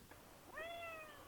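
A cat gives one faint, short meow whose pitch rises quickly and then holds, heard alone against a quiet background.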